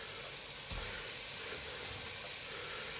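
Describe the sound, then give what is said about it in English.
Onions sizzle as they fry in a pan, a steady, even hiss that holds without a break. “You can hear the sizzle of the onions,”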